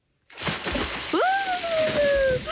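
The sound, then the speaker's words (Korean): A person jumps into the Han River with a sudden splash, then the water keeps churning and sloshing. Over the water noise comes a long, high tone that rises sharply and then slowly falls. “바로 입수해보겠습니다.”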